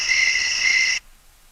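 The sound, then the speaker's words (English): Crickets trill in one steady, high-pitched buzz for about a second, then stop abruptly and leave near silence. “We go crickets.”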